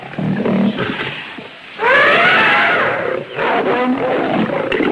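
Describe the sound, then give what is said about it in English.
A lion snarls and roars during a fight scene in an audio drama about Tarzan. Gruff growling opens the scene, a loud, sustained roar follows mid-clip, and then more rough snarling. “Tarzan tries to choke it, his back muscles rippling. The two roll in the dirt. The lion bares its fangs. His face inches from the sharp teeth.”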